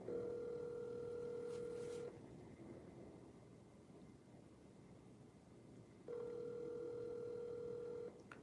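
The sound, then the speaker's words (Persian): A phone call's ringback tone while connecting, two steady electronic rings of about two seconds each separated by a long quiet gap. “داره زنگ میخوره و داره به من نشون میده که داره کانکت میکنه”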